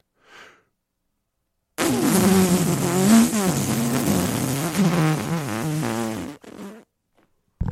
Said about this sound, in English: the medical staff tried to save the besieged fellow by releasing the gas from his digestive system.